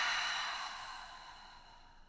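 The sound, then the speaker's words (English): A long, soft exhale out through the mouth during a guided breathwork exercise for anxiety, a faint breathy hiss that slowly fades over about two seconds, alone without talk. “we'll take one more big inhale in through the nose. And this time out through the mouth.”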